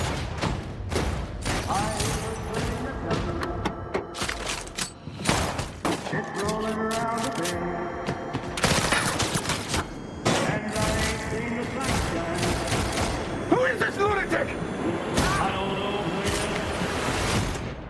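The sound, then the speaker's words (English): Gunfire from an action scene in a Guy Ritchie film: many sharp shots and rapid volleys recur across the stretch, loud and dense, with voices heard between the bursts. “H's idea of protecting the company's property is, you've guessed it, shooting first and not bothering to ask any questions afterwards.”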